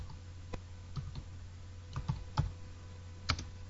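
Keys are tapped on a computer keyboard in sparse, irregular clicks, some in quick pairs, faint against a quiet low hum.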